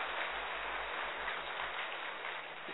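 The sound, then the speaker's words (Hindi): An audience applauds to welcome a speaker, with continuous dense clapping that holds at an even level before easing slightly near the end. “हम सभी करतल ध्वनि से दीदी जी का स्वागत करते हैं।”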